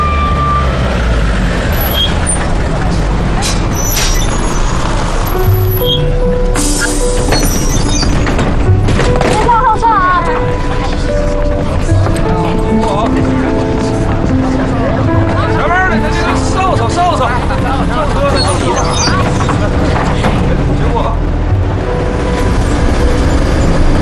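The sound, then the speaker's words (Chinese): A bus engine runs with a loud, steady drone and road rumble that fill the whole stretch, while people talk over it. “赶紧发车吧。 好好，发车。”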